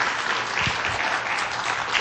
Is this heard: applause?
yes